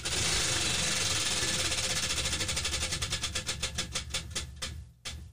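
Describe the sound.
A spun prize wheel ratchets with dense, rapid ticking that gradually slows as the clicks spread apart, ending in a few last ticks before it stops.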